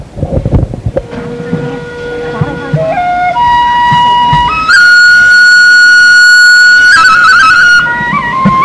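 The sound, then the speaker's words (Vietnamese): Vietnamese bamboo flute playing a loud melody of sustained, pure notes that climb step by step to a long, high held tone, then drop back to lower notes. “chúng tôi xin giới thiệu với tiếng sáo”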